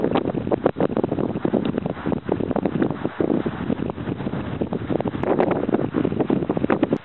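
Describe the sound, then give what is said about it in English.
Wind blowing outdoors on a cold morning, a loud continuous rushing roar buffeting the microphone with constant rumbling gusts and no letup. “the wind is blowing now”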